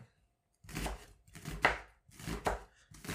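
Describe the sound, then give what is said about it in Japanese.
A knife finely chops an onion into small pieces for fried rice. Several muffled, fairly faint thuds fall at an uneven pace with short gaps between them. No voices. “玉ねぎをね、切っていきますよ。まあ、みじん切りなんでね。”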